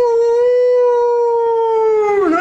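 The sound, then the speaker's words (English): A dog howls in separation distress: one long, loud, sustained howl at a steady, rich pitch that wavers and drops near the end. “this is called distress vocalizations, they call it. The separation distress vocalizations. All mammals do it. Dogs.”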